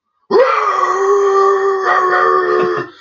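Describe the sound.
A person's voice imitates a dog's ear-piercing howl: one loud, sustained, high-pitched wail that swoops up at the start, then holds steady for over two seconds with slight wavering before cutting off.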